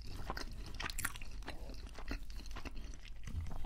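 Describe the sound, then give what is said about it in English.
A Burger King bacon burger is chewed up close. Soft, wet mastication mixes with occasional crunchy bites in an irregular rhythm, fairly quiet and with no talking. “It's the bacon that gives it the flavour. And I don't really eat bacon. And this tastes pretty good.”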